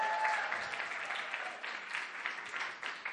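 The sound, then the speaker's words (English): Audience applause welcoming visitors from Sydney at a gathering in Hongdae: steady, dense clapping that holds at an even loudness from start to finish. “We've got some Sydney people in the house here at Hongdae. Come on, can we welcome them?”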